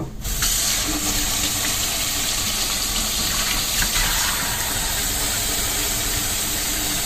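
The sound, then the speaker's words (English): Tap water runs steadily at a kitchen sink while hands are washed: a continuous, even rushing hiss that holds at one level from start to finish, with no talk. “I always wash my hands.”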